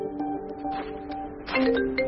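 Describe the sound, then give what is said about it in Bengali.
A mobile phone ringtone plays a melody of steady electronic tones that step up and down in pitch and grows louder toward the end. “Mobile ফোনের ringtone সশব্দে বেজে উঠেছে।”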